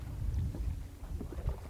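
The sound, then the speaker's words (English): A boat heads in across the water, heard as a faint, low, throbbing rumble mixed with gusty wind noise across a brief stretch, with no voices. “her eyes drift over to a boat heading our way”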